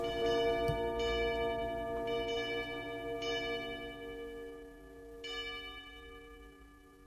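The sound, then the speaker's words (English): Catholic church bells ringing over the Kentucky countryside in June: a few resonant strikes over a sustained, humming wash of overlapping tones that gradually fades toward the end. “There's a glorious history of bells in the Catholic Church.”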